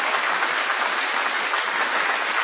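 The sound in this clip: Church audience applauding: a dense, steady wash of many hands clapping at an even loudness throughout, with no voices over it.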